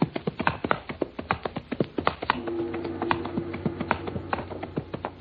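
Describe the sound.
Horse hooves clip-clop at a quick, steady pace as riders climb a mountain toward a gate. A low, sustained tone joins the crisp clops partway through.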